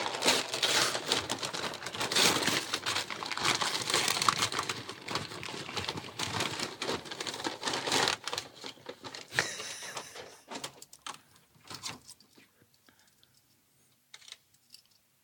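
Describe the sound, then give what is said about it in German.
Paper being crinkled and torn as a gift, a barbecue branding iron, is unwrapped: dense, busy rustling and crackling for about eight seconds, then thinning into a few scattered softer rustles and clicks before quiet. “Lass uns jetzt eine Stunde das Geschenk auspacken. Ich mache das schnell.”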